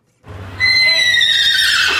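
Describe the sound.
A horse whinnies at a rain-soaked show-jumping tournament in St. Gallen. It is one loud, drawn-out neigh with strong high harmonics, heard alone after a brief quiet start.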